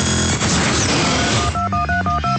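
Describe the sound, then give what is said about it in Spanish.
Touch-tone dialing on a push-button telephone: a quick run of short, clean, dual-pitched beeps follows a loud, noisy burst. “cuando en Estados Unidos se introdujo la señal de tono al tacto y llegaron los teléfonos con botones.”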